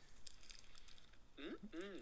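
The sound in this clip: A man unwrapping a sweet: light, crackly rustles of the wrapper, followed by a short voiced sound from the man.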